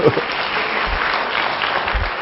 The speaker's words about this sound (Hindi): अपने लिए ताली बजा दो।